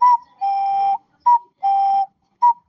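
A carved wooden whistle shaped like a rooster imitates a cuckoo call: five clear, pure whistled tones alternating short and long. The short notes sit slightly higher than the long held ones, and the whistle plays alone without talk.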